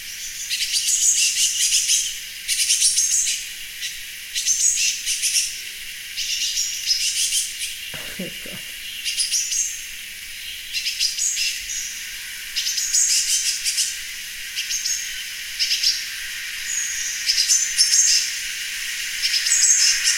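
A young bird's begging call on a balcony: high-pitched chirping calls repeated in many short bursts with brief gaps, fairly loud and continuing throughout.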